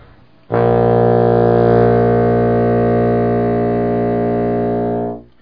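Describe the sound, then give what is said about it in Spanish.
A single low, sustained reed note from a bassoon, the double-reed woodwind, played at the bottom of its range. It enters abruptly and is held steady and loud for about four and a half seconds, then fades out. No other sound accompanies it. “el sonido más grave del Fagot es como el pito de un barco”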